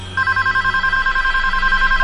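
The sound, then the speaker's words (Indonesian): A telephone rings with a fast electronic trill of two steady tones. The rapid pulses start just after the opening and continue unbroken to the end, loud and alone. “Kebetulan, aku yang paling dekat dengan telepon itu. Dan aku yang mengangkatnya.”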